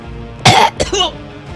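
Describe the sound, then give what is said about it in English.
A single abrupt human cough, loud and harsh, with a short rougher throat-clearing tail, set against a quiet background. “Excuse me for my coughing bit. Well, it wasn't plural or anything. There was only one cough.”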